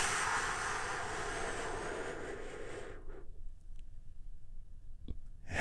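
A deep inhaled breath during a guided relaxation exercise, a soft steady airy hiss lasting about three seconds before fading to near silence, then a faint click.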